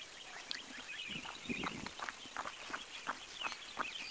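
Footsteps of a person running on a road: a faint, steady stream of many soft footfalls in an even rhythm.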